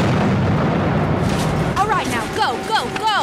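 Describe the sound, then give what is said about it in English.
An explosion set off as a diversion to stop troops coming through a tunnel: a loud, dense roaring rumble fills the first half, then voices shout over the continuing noise. “She's about to blow. All right. Fire in the hole.”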